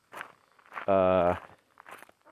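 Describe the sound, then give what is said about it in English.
Soft footsteps of someone out walking dogs, a few faint scuffing steps at low volume, interrupted midway by one brief, louder tonal sound. “once I finish walking the dogs here, I'm about to mow the lawn and do some weeding in the garden”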